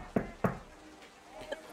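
Knocking on a door: two sharp raps in quick succession, then a fainter single tap after a short pause, over a low background hum.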